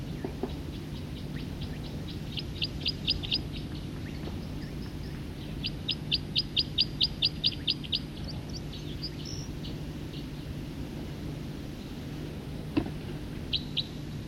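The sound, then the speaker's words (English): Bird song in quick trilled runs of high, bright chirps: two main bursts and a few scattered single notes, heard over a steady low background hum. “Same bird.”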